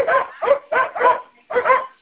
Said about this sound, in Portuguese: Meu cachorro escapou, bem. Por isso que eu tô gritando aqui.